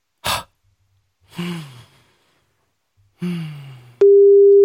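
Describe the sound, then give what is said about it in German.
Phone call tone after pressing call, a short breathy burst and two sighing exhales followed by a steady, loud, pure electronic tone that sets in abruptly and holds to the end. “Und drücke jetzt auf Anrufen.”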